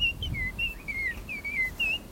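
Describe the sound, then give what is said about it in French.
Nightingale and blackbird singing together: a run of short, clear whistled phrases repeats at a steady pace, each bright and high, over a soft low background rumble. “Il y a encore un rossignol. Il y a un merle noir qui est venu se joindre.”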